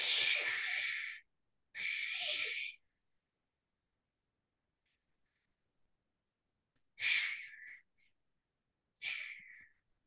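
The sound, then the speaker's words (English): Forceful breaths push air out through the mouth to empty the lungs completely, heard as four breathy, hissing bursts, two close together, then a long silence, then two more. “exhale through the mouth. And the idea is to let all the air out and hold to the bottom, exhale everything.”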